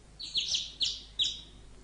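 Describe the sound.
Sparrows chirp in a bamboo grove: a few bright, high chirps ring out in quick succession, each clear and separate over a faint background.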